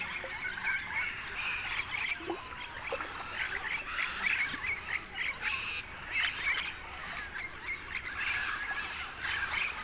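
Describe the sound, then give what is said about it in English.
Dozens of parrots and macaws fly over a lagoon, calling. Harsh squawks and screeches overlap in a continuous, busy chorus with no pause. “The concentration of parrots and macaws is astounding, with dozens in the sky over the lagoon.”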